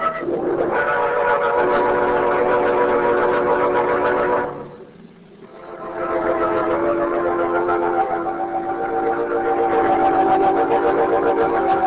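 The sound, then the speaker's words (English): Train passing: a steady rumble with sustained whistle-like tones, dipping briefly around the middle before the rumble and tones swell back up and continue loudly. “It's a train”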